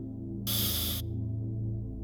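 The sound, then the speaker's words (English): A deep inhale drawn through the nose, filling the lungs, heard as one soft breathy rush lasting about half a second over steady, low sustained tones. “And we do that by taking a good deep inhale through our nose, filling the lungs with air.”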